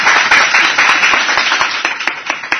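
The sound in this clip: Clapping from a group: a loud, thick round of hand claps at first that thins into distinct single claps and fades toward the end.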